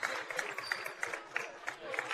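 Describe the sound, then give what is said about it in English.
Basketball crowd cheering and applauding after an easy layup, a dense, fairly faint roar of mixed voices and clapping with small recurring accents throughout. “Crowd was going wild. Yep. They were looking for the dunk out of Jake Look right there.”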